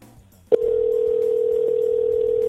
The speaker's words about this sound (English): All right, let's give this broad a call.